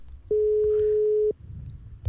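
A single steady telephone ringback tone sounds on an outgoing call, lasting about one second at a mid pitch, then stops, leaving only faint background hiss.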